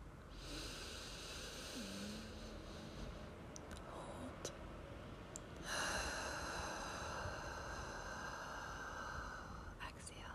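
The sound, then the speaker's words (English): Slow exhalation through the nose during a guided breathing exercise, a soft, continuous, airy hiss that swells around the middle and carries on to the end, with faint tones underneath. “Hold. Exhale in through your nose.”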